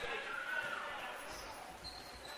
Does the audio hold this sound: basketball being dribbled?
yes